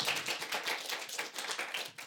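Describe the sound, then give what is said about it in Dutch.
An audience applauds a guest at a live talk show with dense, steady clapping from many hands. It is fairly faint, continues without pause and has no voices over it. “ik wil graag een groot applaus voor de vriendin Christabel.”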